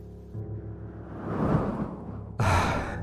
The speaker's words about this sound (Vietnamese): Phù một tiếng, ngọn đăng lộ bị ai đó dập tắt.